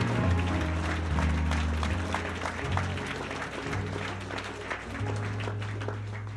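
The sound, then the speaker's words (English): A church audience claps along in worship, a continuous rattle of many hands over sustained low musical chords that shift every second or two. “Clap your hands. Clap your hands right now.”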